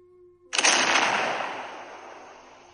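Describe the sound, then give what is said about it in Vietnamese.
A large artillery shell fired in a battle bursts out as one sudden, loud cannon blast, followed by a long, rumbling decay that fades over about two seconds. “Một viên đạn pháo to lớn bắn đến trước mắt rồi rơi trên đống cỏ khô sau lưng kỵ binh.”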